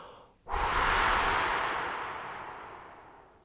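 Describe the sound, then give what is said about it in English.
A deep breath through the mouth during a guided relaxation, heard as one long airy rush of air that starts abruptly, then slowly fades away, with no talk over it. “I invite you to inhale deeply and exhale through your mouth, blowing this awareness into the cells of your body.”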